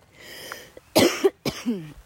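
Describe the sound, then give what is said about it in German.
A few sharp coughs with a rasp of throat clearing from a person with allergy symptoms, fairly loud and alone in a brief, irregular cluster of bursts. “Und jetzt merke ich gerade, kommt ein leichter Hustenreiz in mir hoch.”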